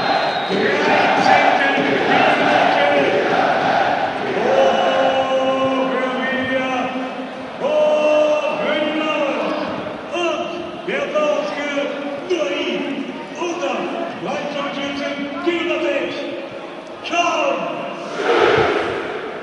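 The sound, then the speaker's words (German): Football fans in the south stand cheering after a goal: loud, sustained crowd singing and chanting with held tones that rise and fall, staying full and steady throughout. “Tja, die Süd freut sich, man hört es im Hintergrund.”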